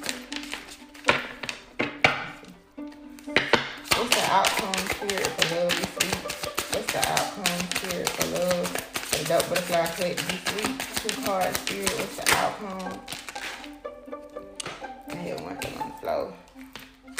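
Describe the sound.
Tarot cards are shuffled and drawn in a dense, rapid flurry of crisp clicking taps lasting several seconds, with a few scattered taps before and after and a person talking throughout.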